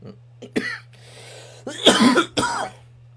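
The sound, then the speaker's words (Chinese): A few short, harsh coughs with brief quiet gaps between them, heard over a steady low hum. “哎呦，有咳嗽了。”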